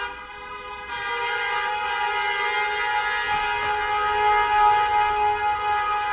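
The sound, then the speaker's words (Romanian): Car horns honking from a convoy of vehicles at a street protest near an embassy. A loud, continuous blare of overlapping, sustained horn tones runs through the whole stretch, with no clear talking. “Băgați claxoane că nu se aude.”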